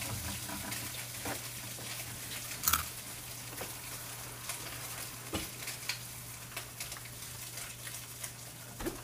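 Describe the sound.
Spam frying in a pan gives off a faint, steady sizzle, broken by a few brief knocks and scrapes.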